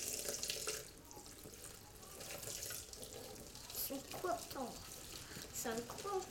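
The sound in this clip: Water runs from a tap while something is rinsed, giving a steady splashing hiss throughout as voices talk over it.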